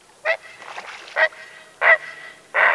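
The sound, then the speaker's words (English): Harsh, honking croaks from a great blue heron hunting frogs and fish along a shoreline: four short, loud calls spaced at fairly even intervals, with fainter rasping notes between them. “Watch and listen for great blue herons, skillfully hunting for frogs and fish along the shoreline. You may hear it call”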